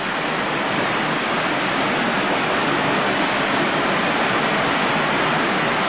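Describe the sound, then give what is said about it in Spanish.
Rushing water roars at a huge hydroelectric dam on the Caroní river in Venezuela, a dense and steady hiss-like wash that stays even and loud throughout with no other sounds. “Esto que usted escucha es nada más y nada menos que el Guri. Sí, sí, así como lo oye, es el Guri. ¿Qué es el Guri? Bueno, uno de los embalses más grandes del mundo.”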